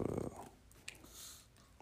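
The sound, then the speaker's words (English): A dog waking up from a stupor gives soft, growly breaths and snorts, faint and brief, with one short, sharper noise partway through. “That's my dog right there. You can hear him right now. He's waking up out of a stupor.”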